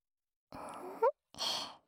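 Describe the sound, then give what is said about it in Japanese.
Gentle blowing into the ear: two soft, airy puffs, each lasting about half a second, separated by a brief pause and surrounded by silence. “ちゃんとできてますか？お耳の中、優しくふうふうできてます？”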